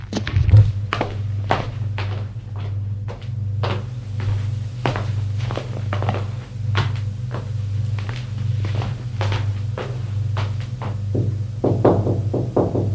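Footsteps go up to a bedroom in a house as a string of dull thuds at an uneven pace. A steady low hum runs underneath, and a few sharper knocks come near the end.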